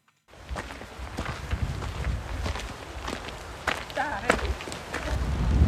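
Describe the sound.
Footsteps crunch steadily up a gravel road in Trandal, a roadless Norwegian village, as a continuous, even rhythm of gritty steps that grows slightly louder.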